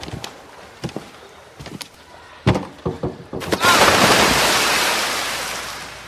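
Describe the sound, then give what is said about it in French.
Someone jumps from a high diving board into the deep end of a swimming pool: a few sharp knocks come first, then a loud rushing splash that slowly fades. “Je sais nager. C'est juste la première fois que je vais dans le grand bassin. C'est bien. Je vois que tu n'as pas oublié ta bouée. C'est pas drôle. Bon, regarde-moi sauter du grand plongeoir.”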